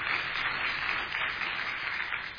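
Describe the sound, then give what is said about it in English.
Audience applause welcoming a preacher at a church service: a dense, steady ovation of many hands clapping, even in loudness from start to finish. “thank you for that rousing ovation. I appreciate that very much.”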